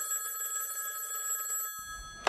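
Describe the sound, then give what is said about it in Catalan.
A telephone rings with a steady, high electronic trill for almost two seconds. It stops and is followed by a single soft click. “Segons la declaració que Àngel Joan Pere va fer als Mossos, va rebre una trucada de Maurici, el de los Pallaresos.”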